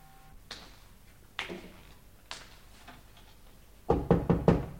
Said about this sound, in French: alla frapper en face au 54